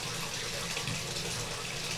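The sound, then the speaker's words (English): Water running from a tap, a steady, dense rushing hiss that holds an even level throughout with no breaks or voices. “Let me turn off the water here. Oh, there we go.”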